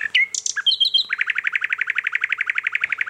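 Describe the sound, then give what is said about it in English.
A nightingale singing at 2 a.m. opens with a few varied whistles and chirps, then breaks into a long, fast, evenly pulsed trill of many bright repeated notes, clear and alone. “Nightingales do sing during the daytime. But often this whole variety of sounds is drowned out by other birds singing. But when you hear it at 2 a.m,”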